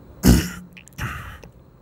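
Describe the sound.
A man clears his throat twice during a mediumship channeling session. A harsh, rasping burst is followed by a shorter, softer second one.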